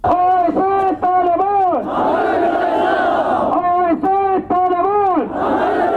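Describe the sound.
A crowd of protesters outside the Pakistani embassy in Kabul chants slogans against recent terrorist attacks, loud and rhythmic. Dozens of voices repeat short phrases in unison, and a longer, shouted swell comes in the middle.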